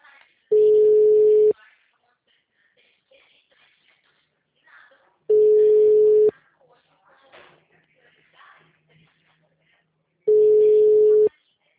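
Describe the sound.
Telephone line tone heard while a call is being placed: a steady mid-pitched beep sounds three times, each about a second long with several seconds of near-silence between, and faint small noises in the gaps.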